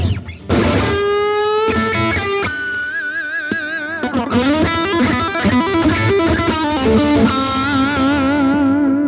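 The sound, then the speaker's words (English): Distorted electric guitar played through an amp that is already overdriven, with loud sustained notes and bent pitches ringing with thick, buzzing harmonics, heard alone without talk. “another way to use an overdrive like the BD2 is to take a sound that's already distorted like this.”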